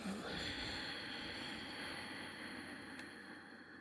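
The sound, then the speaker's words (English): A slow exhale through the nose with a constricted throat, part of a guided breathing exercise. It is a faint, steady, airy hiss that holds evenly for the whole few seconds. “Inhale through the nose, contracting the back of the throat. And slowly let it out through your nose.”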